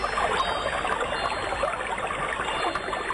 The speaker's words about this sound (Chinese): 这是水流的声音